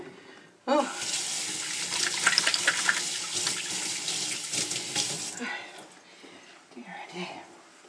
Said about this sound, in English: Wash my hands again.